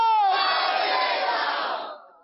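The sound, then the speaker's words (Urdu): A crowd at an Islamic quiz gathering chants a religious slogan together in reply to a call. It is a loud, sustained unison shout that fades out at the end. “نعرہ لگائیں فیضان اعلی”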